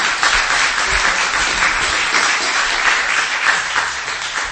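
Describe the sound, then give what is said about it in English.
Sustained audience applause at a church gospel service: a dense, even wash of many hands clapping that holds steady from start to finish with no talk over it. “give a round of applause for our”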